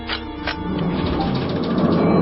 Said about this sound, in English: Thruster malfunction. Shut down the system, buddy.